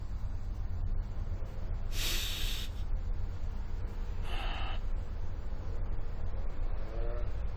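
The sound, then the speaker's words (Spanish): A patient breathes deeply during a lung examination: two airy, hissing breaths, the first longer and stronger, stand out over a constant low hum. “Respira otra vez. Otra vez.”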